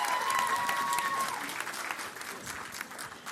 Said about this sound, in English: Would you put your hands together?